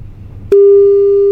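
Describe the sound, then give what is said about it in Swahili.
Telephone call tone: after a low background hum, a loud, steady single-pitch tone starts abruptly and holds without a break. “Jaribu kupiga hii simu.”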